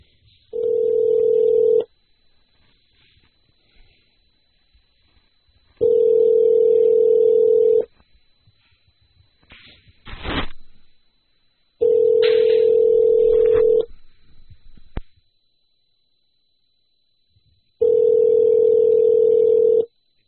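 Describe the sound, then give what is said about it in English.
Ringback on an outgoing telephone call: four long, steady ring tones separated by silent gaps, with a brief click and a burst of line noise between the second and third rings. “So you really can't lose calling the Iceman. So let's give him a call here.”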